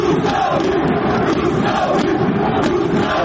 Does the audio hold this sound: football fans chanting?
yes